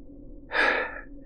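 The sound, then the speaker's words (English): A single sharp, breathy gasp from a man lying on an elevator floor after crashing into it; one short burst of air rising out of near silence, then fading. “Thanks, Don, he panted, one arm draped over his eyes”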